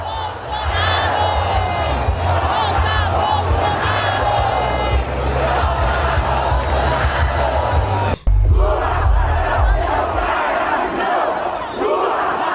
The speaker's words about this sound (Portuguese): Olha o Brasil, aí vira torcida, ó. Grita de torcida.